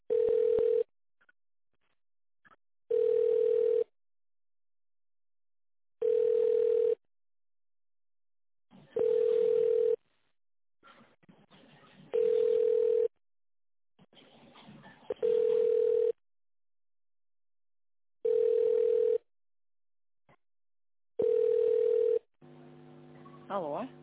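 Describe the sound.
Telephone ringback tone while a call is transferred: eight long, steady mid-pitched beeps at even intervals of about three seconds, with faint line noise in the gaps.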